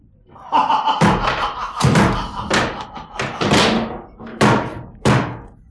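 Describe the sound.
Heavy knocking on a door: a series of loud, booming thuds with short resonant decays, spaced unevenly over several seconds, some blows landing close together in pairs.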